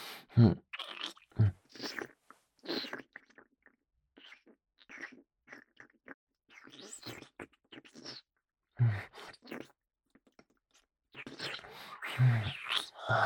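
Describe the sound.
Wet licking and slurping mouth sounds on a person's breasts come in many irregular bursts, with soft breathy noises and brief pauses between runs.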